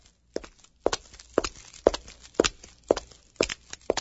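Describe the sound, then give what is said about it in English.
Footsteps of a woman walking: about eight crisp, even steps at a steady pace, each one clear and distinct, with no talking. “A woman is walking.”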